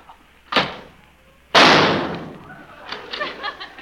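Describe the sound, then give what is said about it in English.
Gunshot sound effect in a comic doctor-and-nurse skit: two sharp bangs, the first short and the second louder with a long, noisy decay. “Why did you shoot that man?”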